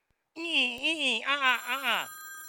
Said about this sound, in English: Ooh, the phone's ringing.